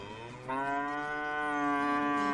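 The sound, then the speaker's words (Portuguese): An ox of a Japanese breed moos in one long, sustained, resonant call that starts softly, grows louder after a moment and holds its low, droning pitch to the end, with no voices. “Qual é o boi? Um boi japonês, uma raça japonesa que custa, em média, 1.000 pila o quilo.”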